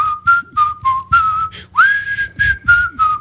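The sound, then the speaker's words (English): A man whistles a tune in a bright, clear tone, moving through a short phrase of separate notes with one sliding note partway through. “And he's whistling.”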